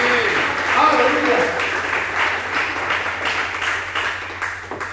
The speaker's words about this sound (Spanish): Vamos, dale un aplauso a Él